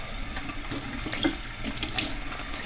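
Tap water runs steadily while cups are rinsed clean of a peroxide solution, giving a continuous splashing hiss with small shifts in flow and no voices.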